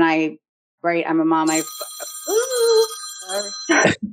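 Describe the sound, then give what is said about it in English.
A telephone rings with a bright, sustained electronic tone lasting about two seconds, while voices talk before, during and after it. “then the phone's ringing”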